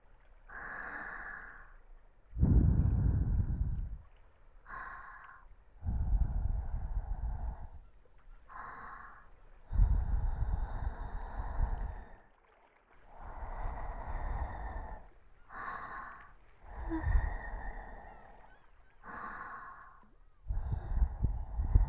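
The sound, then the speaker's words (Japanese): Gentle breath blown softly into the ear in close, intimate puffs, many breathy bursts of airy hiss repeating in an uneven rhythm with short silent gaps between, alone with no talk. “最後に軽く息を吹きかけて差し上げますね。いきますよ。”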